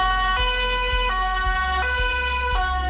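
Ambulance siren on a German rescue vehicle heading to an emergency call. The loud, harmonic two-tone wail steps back and forth between a high and a low pitch at an even, unhurried rhythm, sustained throughout, with no voices.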